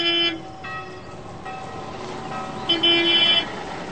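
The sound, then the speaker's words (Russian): A tourist bus drives toward crop circles in a wheat field, its engine a steady low hum, with bright tonal hooting bursts at the start and again near the end. “Туристов везут на автобусе посмотреть круги на пшеничном поле.”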